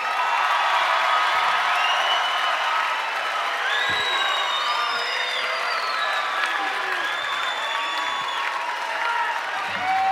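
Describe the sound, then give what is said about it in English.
Audience applause welcoming a performer onto the stage at a live Christmas radio show: loud, steady clapping throughout, with cheers and whoops rising over it. “Ladies and gentlemen, I know this is the first time Tony will have been on this stage. Would you please put your hands together and welcome Tony Rigatoni.”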